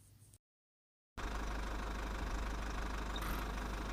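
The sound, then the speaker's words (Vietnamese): A car engine idles from downstairs, a steady, loud low rumble with a rough vibrating texture that starts after a short silence and holds evenly to the end. “Dưới lầu truyền đến tiếng ô tô.”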